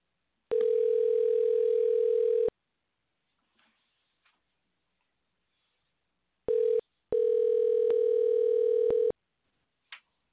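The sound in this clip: Telephone dial tone heard while calling a guest: a steady, mid-pitched electronic tone that holds for about two seconds, then a short burst and another two-second stretch, with a few faint clicks in between.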